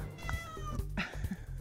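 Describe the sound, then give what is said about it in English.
Cat meowing at home, a few faint, short meows with wavering tone over a low background rumble. “Welcome to my cat, by the way.”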